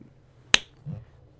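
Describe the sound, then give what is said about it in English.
A single crisp finger snap, used as a high-five sound effect, sharp and very brief against near silence. “That was the sound of you guys giving me a high five for doing a good job.”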